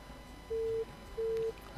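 A telephone tone sounds after a phone-in call is cut off: two even, mid-pitched beeps separated by a short gap, fairly faint, followed by a brief thump.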